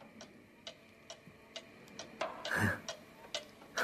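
An old cuckoo clock, taken down from the wall and laid on a table, ticks faintly and steadily in a regular rhythm of many light ticks, with a brief rustling noise partway through.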